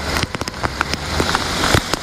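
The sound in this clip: Heavy rain pouring down during a storm that floods streets and homes, a loud, dense hiss of water on surfaces scattered with sharp drop taps and crackles, with no voices.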